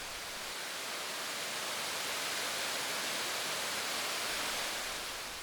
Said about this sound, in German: Hörst du es? Wir nähern uns wieder dem Leinewehr.